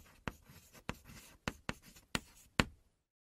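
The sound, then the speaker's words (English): Chalk writes on a chalkboard in six sharp, clicking taps with fainter scratchy strokes between them. The rhythm is uneven, and the sound is moderately loud and alone. “My little homage to being back at school, just writing on that chalkboard, which always started this big, and then just the letters keep going smaller and usually higher up as you went through the board.”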